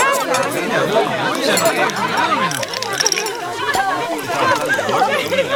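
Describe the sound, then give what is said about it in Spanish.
Dinner sounds: many voices chattering at once, with occasional light clinks of glasses or cutlery breaking through the steady hum of conversation. “Seguramente estos te parecieron sonidos de una cena cualquiera”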